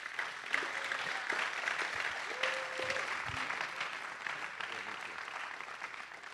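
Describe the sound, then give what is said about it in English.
Sustained applause from a church audience welcoming a guest to the front: dense, even clapping that holds at a steady level from start to finish without a clear break or fade. “So Don, why don't you come up? Let's give him a hand.”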